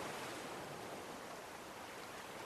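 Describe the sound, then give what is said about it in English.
Faint, steady wash of ocean waves against huge, sharp boulders around an island, a continuous rushing surf with no distinct individual crashes. “Huge, sharp boulders that have been protecting this island of faith from the waves that seek to destroy.”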